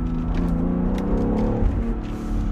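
Engine of a BMW X3 M SUV running with a dense, steady low rumble and a throbbing hum whose pitch wavers slightly, loud and continuous throughout with no talk.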